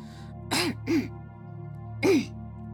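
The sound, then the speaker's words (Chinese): A voice performs a little girl's dry cough: a few short, husky, voiced bursts, with a longer gap before the last one, over a quiet steady hum. “小女孩突然干咳了两声”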